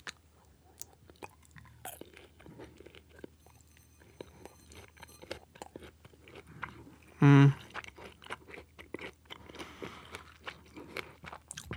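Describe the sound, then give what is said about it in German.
Biting and chewing of a dried-fruit-like snack: many small, moist crunches and smacks repeat irregularly, with one much louder bite or crunch about two-thirds of the way through. “Ja, wie so eine Trockenfrucht oder so ein bisschen, ne? Ja. Das ist eklig für die Leute, die Essgeräusche hassen, ne?”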